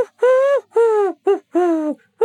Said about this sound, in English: in P-Flax's garden, the lowly call of a wood pigeon